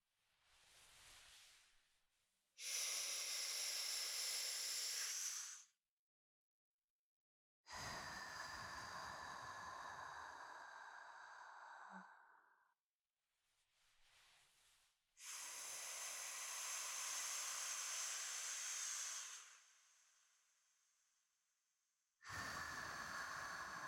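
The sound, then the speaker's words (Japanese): Slow, deep breathing meant to calm: several long, airy breaths with pauses between them, alternating softer and louder hissing inhales and exhales, each lasting a few seconds. “それでは気分を落ち着けるために目を閉じてゆっくりと深呼吸いたしましょう。私の呼吸に合わせて。”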